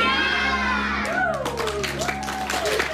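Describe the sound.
Children cheer and shout in a Berlin children's hospital ward during a clown visit: a steady mix of high, excited young voices with whoops rising above it.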